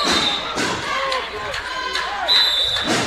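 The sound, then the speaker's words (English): A basketball is dribbled during a women's game, giving a few sharp, thudding bounces at an irregular pace over a busy background. “Looks like she dribbles out of bounds.”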